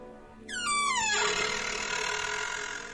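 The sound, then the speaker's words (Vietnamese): A gate swings open on a dry, unoiled hinge, giving a harsh creaking squeal whose pitch slides downward over under a second, then trails into a sustained rasping noise. “Cổng vừa mở, cái bản lề khô dầu kêu lên ken két đến ghê cả răng.”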